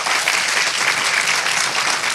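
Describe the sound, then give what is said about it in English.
A church audience applauds during a sermon, giving a hand clap to God: many hands clapping together in a loud, continuous, even patter for about two seconds. “Come on, give God a hand clap if he's been good to you today.”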